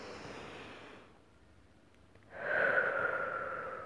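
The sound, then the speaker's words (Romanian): A deep breath in and out during a calming stress-management relaxation exercise: a soft breath, a short pause, then a longer, louder breath with a steady airy rush. “Gândește-te tu la ceva ce îți aduce o stare de calm și liniște, apoi inspiră adânc și expiră, ceva de genul.”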